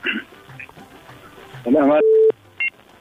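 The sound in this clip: A telephone call is placed on a call-in show. After brief voices, warbling electronic tones sound, then a steady held tone and one short beep.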